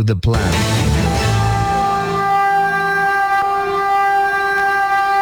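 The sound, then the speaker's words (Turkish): High-speed train approaching: a loud, sustained horn blast with a strong, steady tone rises out of a rumbling, noisy onset and holds for several seconds. “Hızlı tren yaklaştıkça endişe arttı.”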